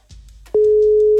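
A telephone ringback tone on an outgoing call: one steady, unbroken tone that starts about halfway through and holds loud to the end, after a stretch of faint low background noise.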